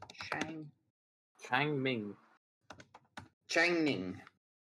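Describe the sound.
Notes are typed on a keyboard: a brief cluster of light clicks between stretches of people talking.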